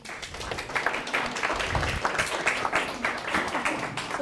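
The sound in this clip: Steady audience applause welcomes a speaker at a Trailside Thursdays community talk on JVS refugee resettlement. Dense, even clapping runs throughout at moderate loudness with no clear talk.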